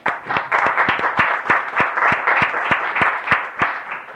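Applause welcomes a guest introduced from the gallery in a legislative chamber. Steady group clapping runs throughout, with sharp individual claps standing out at a regular beat.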